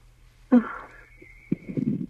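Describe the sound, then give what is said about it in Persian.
A woman takes a deep breath before speaking: loud, wheezy breathing sounds with a sharp onset and a longer, rough, noisy stretch after it, with no talk. “من یه نفس عمیق بکشم.”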